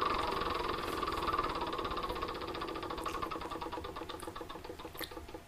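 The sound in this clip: A board game spinner wheel whirs through a rapid run of ratcheting clicks after being spun. The ticks come fast at first and then gradually space out as the wheel slows.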